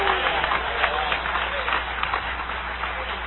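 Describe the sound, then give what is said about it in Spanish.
Congregation applause during a church service as praise to the Lord, a steady, dense and slightly muffled wash of clapping that holds an even level throughout, with voices faintly mixed in. “Dale ese aplauso de alabanza al Señor.”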